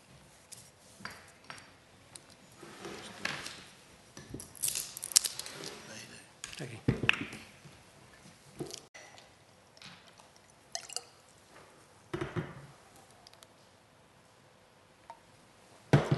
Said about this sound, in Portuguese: desculpem que eu vou só aqui molhar a minha garganta.